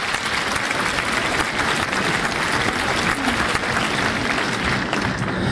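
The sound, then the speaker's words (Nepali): Applause from listeners for the winner of a radio quiz and a $30 store voucher: dense, steady clapping that holds at an even loudness for the whole stretch with no break. “बधाई छ तपाईँलाई ताली पड्काउँ”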